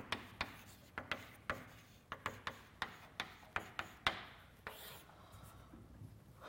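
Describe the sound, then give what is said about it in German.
Writing on a blackboard during a lecture: many sharp chalk taps and short scratches in an uneven, fairly quick rhythm, followed by softer, continuous rubbing strokes, all fairly faint. “das schreibe ich mal auf die Tafel da hinten”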